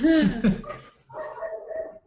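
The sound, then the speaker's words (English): Excited dogs bark, a couple of loud, high-pitched yelping barks at the start, followed by a quieter, softer stretch. “Sorry for the crazy dogs.”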